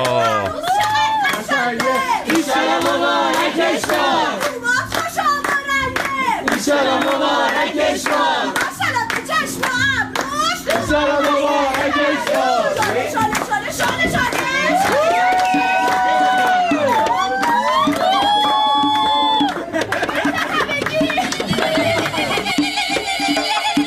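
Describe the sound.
A wedding crowd claps and cheers. Busy rhythmic handclaps run loudly alongside singing voices, with no break for the whole stretch.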